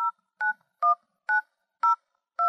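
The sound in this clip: Touch-tone phone dialing: six short, clean beeps, evenly spaced with silences between, as a number is keyed in. Each tone is a steady two-note chirp.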